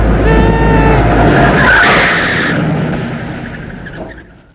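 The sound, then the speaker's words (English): A car drives away with a short skid of tire squeal as it pulls off. The engine noise holds steady, then fades out over the last couple of seconds. “Zacharias gets to his feet and sees Nick driving away.”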